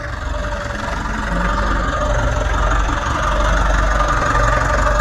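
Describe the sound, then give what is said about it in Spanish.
A running engine hums in a steady low drone with no talk, growing slightly louder after the first second and then holding an even, rumbling tone. “Escuchen el ruido del motor.”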